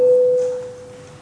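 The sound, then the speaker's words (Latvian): A parliamentary chamber bell calls members to a vote: one clear, sustained tone that starts loud and fades steadily over about a second. “Lūdzu zvanu, balsosim par 142. deputāta Valaiņa iesniegto priekšlikumu.”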